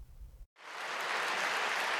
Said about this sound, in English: The performance ended with a standing ovation, and some audience members described it as a healing experience.